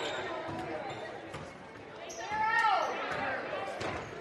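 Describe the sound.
A basketball dribbled on the court during a game, its bounces faint beneath a commentator's voice and crowd chatter, with a brief rise in loudness partway through.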